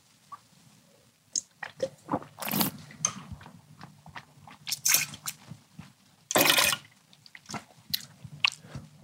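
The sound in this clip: Wet mouth sounds of someone tasting a funky biodynamic wine: two loud, hissing slurps that draw air through the wine, scattered among faint smacks and clicks of the lips and tongue.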